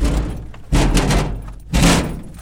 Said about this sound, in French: Parce que ça a bougé, ça frotte. On pouvait même plus l'ouvrir, les deux portes